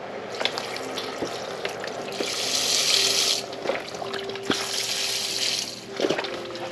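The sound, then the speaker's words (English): Liquid being poured into a pot of beans and vegetables, heard as two hissing, splashing pours of water, each lasting about a second, with light knocks and clinks between them. “Let's see if we can add any liquid.”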